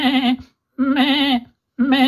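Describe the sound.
A human voice imitates a goat, giving three nasal, wavering bleats, each loud and quivering, with short silences between them.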